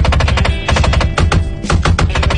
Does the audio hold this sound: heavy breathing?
no

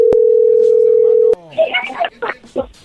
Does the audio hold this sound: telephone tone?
yes

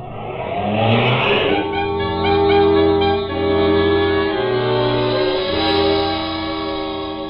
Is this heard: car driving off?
yes

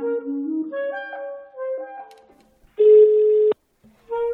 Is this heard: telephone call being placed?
yes

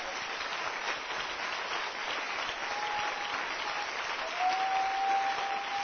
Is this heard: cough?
no

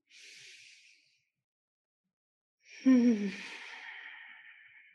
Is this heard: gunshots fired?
no

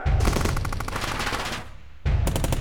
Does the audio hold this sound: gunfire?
yes

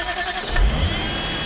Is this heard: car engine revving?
yes

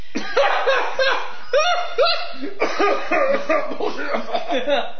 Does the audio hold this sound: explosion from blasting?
no

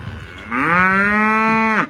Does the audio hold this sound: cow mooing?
yes

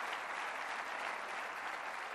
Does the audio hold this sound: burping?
no

